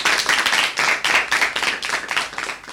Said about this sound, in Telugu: ఇప్పుడు అశ్వేత చాలా బాగా పాడింది కదా, అయితే మనం చప్పట్లు కొడదాం.